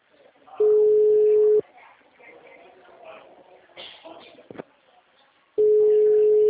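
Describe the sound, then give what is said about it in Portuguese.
Telephone tones as a call is placed: two long, steady, even beeps, each about a second, separated by several seconds of faint muffled handling sounds. “Vai que agora eu tô ligando certo.”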